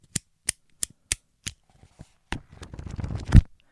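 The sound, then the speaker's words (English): Five sharp, evenly spaced clicks from a bamboo pen, then a few softer taps, followed by the rustle and flutter of notebook pages, ending on one louder thump. “I have a pen, which sounds like this, and I have a notebook, which sounds like this.”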